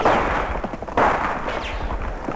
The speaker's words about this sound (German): Auch viele Schüsse krachten, doch keiner von ihnen erreichte mich.